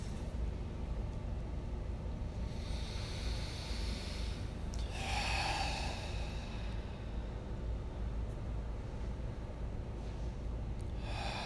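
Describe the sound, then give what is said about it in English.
Deep breathing during a guided meditation: slow, airy breaths drawn in through the nose and let out through the mouth, soft and unhurried over a low steady background hum, with no talking. “Taking three last deep breaths in through the nose, filling the body, out through the mouth.”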